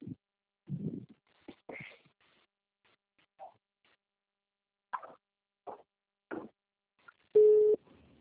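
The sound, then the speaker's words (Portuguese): A telephone call's ringing tone: one steady, evenly pitched beep sounds loudly near the end, preceded by scattered faint clicks and knocks. “A Natasha, alguém liga pra Natasha, por favor, só tá faltando ela. Vou ligar.”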